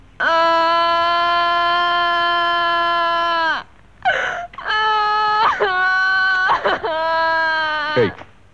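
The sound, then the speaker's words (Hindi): Crying and sobbing: a long, drawn-out wail is followed by several shorter, broken sobbing cries with catches of breath, loud and emotional. “इधर देखो, इधर देखो, इसमें रोने की कोई बात नहीं है”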